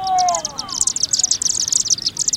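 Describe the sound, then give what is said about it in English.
A flock of small dark birds whirls above a chimney on a September evening after sunset, giving a dense stream of rapid, high-pitched chittering chirps with many calls overlapping. “Scores, perhaps hundreds, of small, dark birds whirling by, then forming a funnel-shaped cloud above the chimney.”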